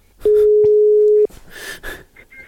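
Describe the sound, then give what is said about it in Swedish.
A telephone call rings out with a single steady, mid-pitched ringback tone lasting about a second, followed by a few faint, muffled rustling noises. “Vi ska ringa till Jimmy Jeppsson som var på plats när Karlskrona säkrade sin plats i SHL.”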